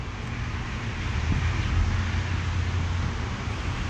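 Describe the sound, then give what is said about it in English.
Steady wind blowing across the microphone, a broad, constant rushing hiss over a low buffeting rumble that holds at a fairly even loudness throughout, with no voices. “The wind's kicking up.”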